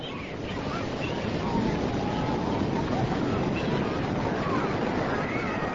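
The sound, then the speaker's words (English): Ocean waves wash on an Atlantic beach in a steady, rushing roar of surf that stays at an even level throughout, with no separate crashes standing out. “Мартин Лернер и его семья находятся на пляже на берегу Атлантического океана”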